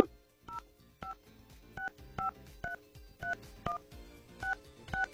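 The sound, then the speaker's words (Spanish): Telephone keypad tones beep in a quick series of short, steady two-pitch chirps as a number is dialed, each press clean and evenly loud, with faint background noise between them. “Ahí está, si marcamos bien, vamos a ver si nos contesta otra damita.”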